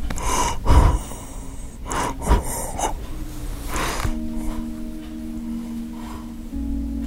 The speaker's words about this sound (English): You can probably hear him breathing here in the background.